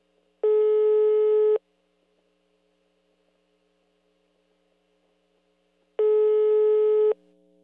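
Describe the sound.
Telephone ringback tone on an outgoing call: two long, steady buzzing tone bursts of about a second each, separated by several seconds of near silence, with a faint low hum between them.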